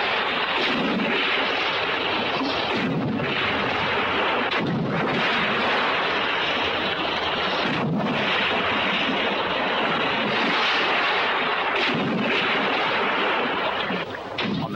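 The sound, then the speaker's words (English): Underwater bombs exploding below a cliff edge: a continuous, heavy roaring rumble with a few deeper booming thuds rising from it at intervals. The sound stays loud and dense throughout, and no voices are present. “The underwater bombs begin to explode.”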